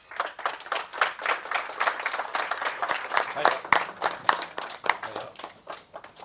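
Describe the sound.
Applause from an audience welcoming the mayor of Sandnes as the next panel guest: a steady, dense patter of many hands clapping that carries on without a break, rising and dipping slightly in loudness.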